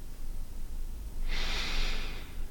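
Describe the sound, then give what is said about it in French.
A single slow breath from a relaxation breathing exercise, in through the nose and out through the mouth. A soft, airy hiss swells midway and holds steadily for about a second over quiet background noise, with no talking. “Inspirez avec le nez et expirez avec la bouche, comme si vous souffliez sur un voile que vous soulevez très légèrement.”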